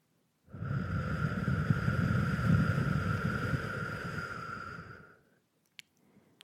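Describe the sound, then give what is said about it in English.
A slow breath blown out through parted lips after a nasal inhale: one long, steady rush of air lasting about four and a half seconds, with a faint whistling edge, then fading to silence. “Inhale through your nose. Lips part, blow the air out.”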